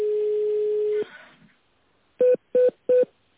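Telephone line tones as a sales call is put through. A steady tone holds for about a second, then fades, and after a short pause three short, evenly spaced beeps follow.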